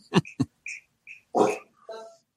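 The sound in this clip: A dog barks and vocalizes in a few sharp, separate bursts, mixing brief rough barks with higher whiny tones between them.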